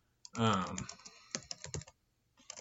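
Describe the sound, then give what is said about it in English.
Typing on a computer keyboard: after a brief spoken voice, a short, uneven run of a few clicking keystrokes, moderately quiet, with another faint tap near the end. “Mark Twain. My goodness, I can't type.”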